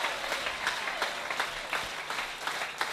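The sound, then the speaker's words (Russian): Church audience applauding during a bilingual sermon, many hands clapping in a steady, fairly dense patter with occasional sharper claps standing out, at moderate loudness. “Let's give the Lord a hand. Давайте воздадим Богу аплодисменты.”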